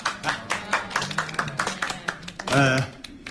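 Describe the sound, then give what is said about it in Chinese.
An audience claps to welcome a company chairman about to speak at a village gathering: a run of quick, uneven handclaps, with a brief voice rising near the end before the clapping thins out. “这太好了，来来来，我们热烈欢迎青岛胶州青山食品公司的徐董事长给大家讲话啊。”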